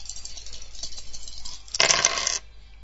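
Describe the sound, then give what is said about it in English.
Dice rattling in a computer dice game: a few soft ticks, then a short bright clattering burst of tumbling dice that stops abruptly. “Press the space bar to roll the dice.”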